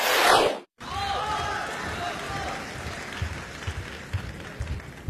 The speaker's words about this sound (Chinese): 感谢您的掌声鼓励。